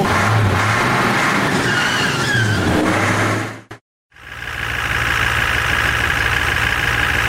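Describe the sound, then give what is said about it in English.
A tour bus engine drones steadily while driving, a loud continuous rumble with a high whine. It drops abruptly to silence for a moment midway, then resumes at the same level. “It is a great honor to be driving so many of my favorite podcasters around. I am going to drive especially quickly as a mark of my respect for their work.”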